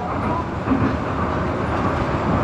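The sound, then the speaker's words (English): A fast-moving train: a dense, steady rumbling roar with a faint rattling texture, unbroken throughout and with no voices. “Attention please, the train is about to board.”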